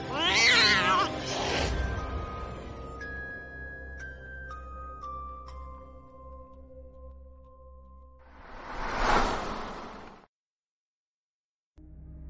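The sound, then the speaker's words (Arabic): A small cat meows softly, giving two short meows at the start, followed by a few sustained, fading chime-like tones and a brief breathy rushing burst. “لقد صحوت على صوت مواء خفيف، ثم فتحت عيني لأرى القط الصغير يثب”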